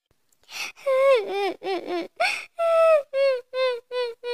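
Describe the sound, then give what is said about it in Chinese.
Crying of a little princess in a fairy tale who cannot reach something in a wide, deep lake: many short, high, wavering sobs and whimpers, then several longer wails, fairly loud throughout. “湖面很宽，湖水很深，小公主 Princess 怎么也捡不着。他急得哭了起来。”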